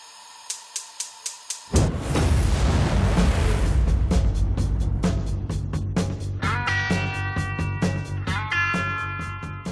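Sting for a quick-fire questions segment: five crisp clock-like ticks, then a loud booming burst that opens into a sustained rumbling bed with rapid ticking and bright tonal notes joining toward the end.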